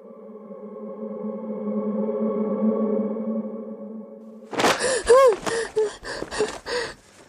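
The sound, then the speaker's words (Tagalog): Someone gasps for breath after waking from a nightmare in a dramatized horror scene. An eerie sustained tone plays first, then several sharp, ragged gasps follow in quick succession. “Habol-habol ko ang aking hininga nang magising ako.”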